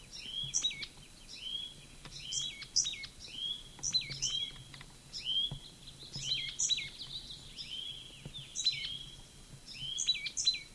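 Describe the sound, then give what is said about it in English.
Bird calling: a busy run of many high, sharp chirps and short whistled notes, repeating quickly and unevenly throughout over a faint, steady background hiss. “Same bird.”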